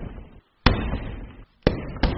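Taekwondo kicks land as three sharp, loud smacking impacts, each cutting in abruptly, with a longer gap after the first and a quicker pair at the end.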